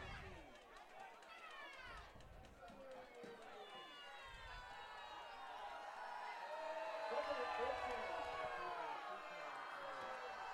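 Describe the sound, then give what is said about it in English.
A football crowd at Richmond versus Imlay City reacts unhappily: many voices shout and yell at once in a dense, continuous roar that swells louder midway and stays raised to the end. “Crowd not happy with something.”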